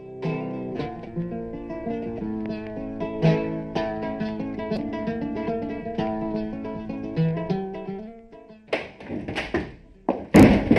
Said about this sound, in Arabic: لماذا تصفقين الباب بعصبية هكذا؟